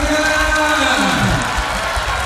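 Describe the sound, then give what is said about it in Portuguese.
Audience clapping and cheering at a Catholic worship event, a steady crowd sound with a voice briefly rising over it partway through. “Palmas, palmas, palmas, palmas.”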